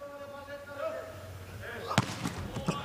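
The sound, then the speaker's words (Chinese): A volleyball serve by China team player Wang Bin: two sharp ball impacts, the second softer, rise out of a steady, low arena murmur. “还是王斌的发球，”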